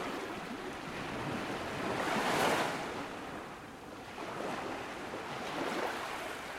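Ocean waves at a fishing village: soft, continuous surf that swells to a louder peak, eases, then builds again, with some wind noise and no voices.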